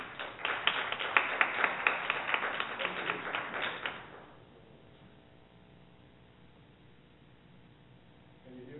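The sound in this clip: A small audience claps to welcome a professor before his talk: a few seconds of steady, even clapping that fades away into quiet.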